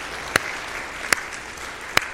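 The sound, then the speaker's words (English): Audience clapping at a gathering of thanks where an organ is mentioned, heard as three sharp, separate claps spaced unevenly over a steady background hiss. “Now, yeah, you can clap. You can clap.”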